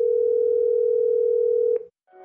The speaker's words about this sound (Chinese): 孟昭又拿出周衍的手机，用自己的手机给周衍的号码拨了过去。